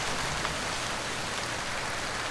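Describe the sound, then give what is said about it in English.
Rain falling as a steady, even hiss that stays at a constant moderate level throughout, with no voices. “There it is. Rain! Rain! Rain and...”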